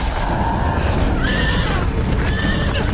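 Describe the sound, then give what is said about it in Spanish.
A horse rears and neighs in a battle between Greek and Persian fighters, letting out two shrill whinnies over dense, loud rumbling noise. “Un caballo se encabrita.”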